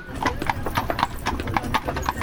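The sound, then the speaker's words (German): Ponies' hooves clip-clop in a steady, even rhythm while pulling a carriage, with crisp repeated strikes running throughout over a low background rumble. “Bei Christina ist heute Action angesagt auf der Kutsche, oder? Ja. Die dritte Kuhherde jetzt zur Mittagsrast. Genau. Und die Ponys sind nicht so bewandert im Umgang mit den Kühen.”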